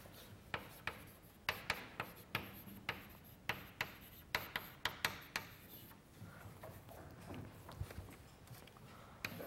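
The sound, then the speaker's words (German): Writing something down during a logic lecture: a faint series of sharp taps and scratching strokes in an uneven rhythm, busy through the first six seconds and sparser afterward. “Das heißt, das schreiben wir uns mal auf.”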